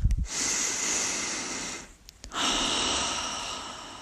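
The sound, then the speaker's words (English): A deep breath is drawn in and let out: a brief sharp sound, then a long airy hiss, a short pause, and a second long airy hiss that runs to the end, with no talk. “Take a deep breath.”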